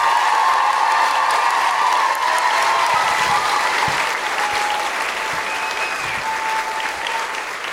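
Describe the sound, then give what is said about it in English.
Loud, sustained applause from a live audience greets a performer walking on stage in Auckland, with scattered cheers mixed into the steady clapping, which thins slightly toward the end. “Please put your hands together and make incredible noises for the wonderful Grace Petrie!”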